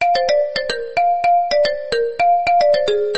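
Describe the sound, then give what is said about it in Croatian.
Phone ringtone of an incoming call, a rapid melodic run of many short, bright electronic tones that step up and down in pitch in a repeating pattern, loud and with no talk. “imam neki poziv, sad moram se javiti na ovo”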